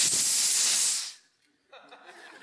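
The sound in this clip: A voice imitating a snake's hiss: one loud, steady hissing breath lasting about a second that fades out, followed by a brief pause and softer, quieter vocal sounds.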